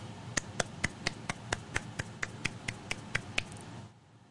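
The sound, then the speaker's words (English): A slow golf clap: quiet, single, evenly spaced hand claps, about four per second, running for under four seconds before stopping. “Little golf clap for the bishop.”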